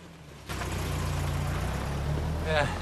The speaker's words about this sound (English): Outside the church, Christine drives off with Joshua and Sophie.